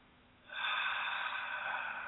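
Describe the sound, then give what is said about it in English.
A deep centering breath taken in a studio at the start of a guided meditation: one long, steady, airy rush of breath that begins about half a second in and continues evenly to the end, with no talk. “I'd like to invite everyone in the studio as well as those listening at home, you know, just to take a deep centering breath right now.”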